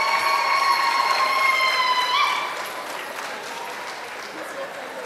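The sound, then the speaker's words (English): Audience applause at a ballroom celebration evening: dense, steady clapping that is loud at first and then drops to a lower, continuing level about halfway through. “Give a round of applause for the people who made this happen.”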